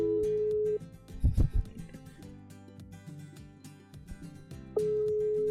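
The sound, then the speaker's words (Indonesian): Ringback tone of an outgoing telephone call: a steady, mid-pitched electronic tone sounds, breaks off into a gap filled with soft handling knocks and clatter, then returns steady and loud at the end. “Kita telepon sekarang. Oke, udah nyambung. Belum dong, masih tutut.”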